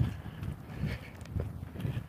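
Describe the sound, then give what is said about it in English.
Footsteps of a person walking, a steady series of soft, low thuds at an even walking pace, moderately loud and with no talk over them. “So here I am, walking. Walking and talking.”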